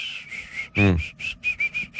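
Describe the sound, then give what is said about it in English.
A person imitates an absent-minded whistle made unconsciously while concentrating on work: a string of short, high, steady whistled notes in an uneven rhythm, broken midway by a brief voiced, hum-like sound. “I named it the concentration whistle. So whenever he's working on something or doing something, he subconsciously goes”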